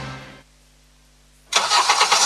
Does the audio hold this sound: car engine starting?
yes